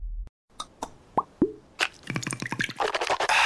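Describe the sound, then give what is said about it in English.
A bottle of Listerine mouthwash is opened, poured and swished. Sharp clicks and hollow liquid plops are followed by a dense, wet gurgling swish that builds toward the end. “You know what that is. That's the sound of wow with Listerine. Simply grab, twist, pour, and swish for 30 seconds twice a day”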